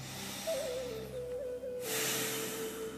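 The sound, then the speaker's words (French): Deep breath drawn in through the nose, a faint airy hiss that swells in the second half over a soft, steady low tone. “on commence par prendre trois respirations profondes. Avec cette intention de se détendre, de se relâcher. Une deuxième, avec le nez.”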